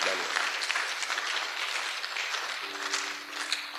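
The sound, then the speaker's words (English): A group of people claps for themselves in a brisk, even burst of applause lasting a few seconds. A voice comes in briefly near the end. “Oh, clap for yourself.”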